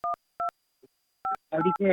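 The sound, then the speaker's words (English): Three short touch-tone beeps as a telephone number is dialed to call a food delivery service, evenly pitched and spaced apart, followed by a voice speaking. “Oh, I'm making a phone call.”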